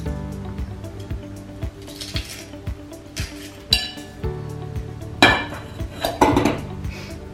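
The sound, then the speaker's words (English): Metallic clinks and handling clatter as two medium garlic cloves are pushed through a garlic press in a kitchen. Sharp, irregular taps lead into a few louder crunchy, squishing bursts near the end. “Got two medium garlic cloves here we're gonna put through a press.”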